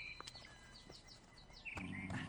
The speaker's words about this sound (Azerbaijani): Quşlarınız çox gözəl oxuyurlar.